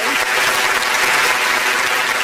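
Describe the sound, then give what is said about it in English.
A crowd breaks into loud, dense applause that holds at an even level throughout, a thick wash of clapping with no pauses. “that applause sound kind of skeptic, but yes, there you go.”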